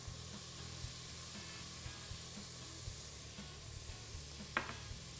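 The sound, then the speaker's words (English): Shrimp sizzle as they are stirred in a pan, with caramelization forming on the pan bottom: a steady, faint frying hiss broken by a few soft knocks and scrapes of stirring. “Okay, stir those shrimp up. Starting to get a little caramelization on the bottom of the pan here.”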